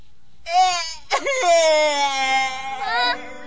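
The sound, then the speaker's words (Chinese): A child cries in long, high, wavering wails. A short sob breaks in after the first wail, then a sustained, tremulous cry carries on to the end. “别哭嘛，还有什么事用说的就好了嘛。哎呦，我从你的哭声也听不懂你受的委屈呀”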